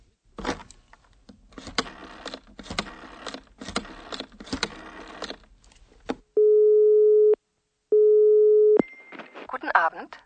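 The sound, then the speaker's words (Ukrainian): Telephone line tone heard while calling a theatre. Two long, steady, mid-pitched tones sound one after another with a short gap between them. People talk before the tones, and a voice joins a higher tone at the end. “І Андреас телефонує до театру, щоб запитати, чи є ще картен, квитки.”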